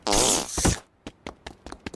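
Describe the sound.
A voice imitates farting with one long, loud, buzzing blurt, then a string of short, quieter sputtering pops.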